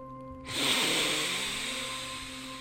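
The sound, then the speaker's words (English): One long, deep breath is drawn in during a sleep meditation. After a short silence, a steady airy hiss holds for about two seconds with no talk over it. “I want you to take a deep breath in”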